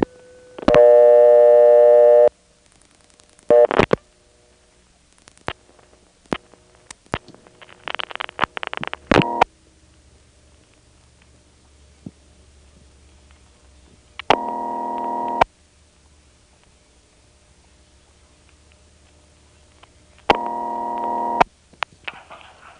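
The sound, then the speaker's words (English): A telephone call dialed as 9411 and routed through a crossbar exchange: a steady dial tone, then scattered relay clicks and clatter, followed by two separate bursts of a mid-pitched tone with a quiet line in between. “We'll dial 9411 and notice how it goes through.”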